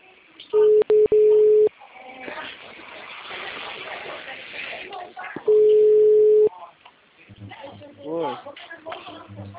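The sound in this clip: Telephone tone after a dropped mobile call on the Oi network: a steady mid-pitched beep sounds in two long bursts, the first briefly broken twice, with muffled voices talking between and after them.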